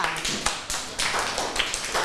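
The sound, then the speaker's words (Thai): Schoolchildren in a classroom clapping their hands for a group of classmates, heard as a series of loose, uneven sharp bursts rather than a smooth, continuous applause. “ถ้าเห็นด้วยกับเพื่อนก็ปรบมือให้กลุ่มนี้ด้วยค่ะ”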